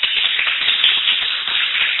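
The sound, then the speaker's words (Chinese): An audience at a book club gathering applauds, a soft, dense patter of many hands that stays even and steady throughout. “谢谢你们的掌声啦吼”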